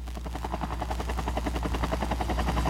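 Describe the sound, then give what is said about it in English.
A helicopter in flight throbs with a fast, steady chop of rotor blades over a continuous low engine drone, loud and unbroken throughout. “The WLTL helicopter. Hold on a sec. Let me see if we can patch him through.”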